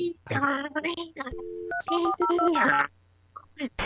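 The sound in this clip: Touch-tone dialing beeps from an old AOL dial-up connection: a short run of steady electronic tones and stepped beeps, with voices talking around them.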